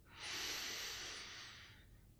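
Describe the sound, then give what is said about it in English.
Slow, deliberate breathing from a guided exercise, in through the nose and out through a wide open mouth: one long, airy hiss swells quickly, holds, then fades gradually, faint and heard alone. “In through the nose, and out through a wide open mouth.”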